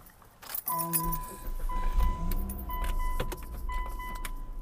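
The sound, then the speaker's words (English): Car driving and pulling into a parking spot in a shady area: a steady low engine and road rumble runs throughout, with a jangle of keys layered over it. “Excuse me while I drive.”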